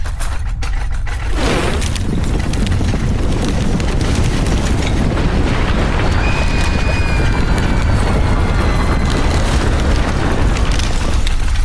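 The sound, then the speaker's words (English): Hell-portal opening effect: a loud, continuous roaring rumble with a deep boom near the start and a thin, high whistling tone drifting through the middle, staying heavy and unbroken to the end. “We're opening a portal to hell.”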